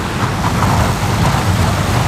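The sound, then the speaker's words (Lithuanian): A heavy truck passes on a town street with no bypass road, a loud, steady low rumble with broad roaring road noise that holds constant throughout, with no voices. “Tai taip skamba sunkvežimis.”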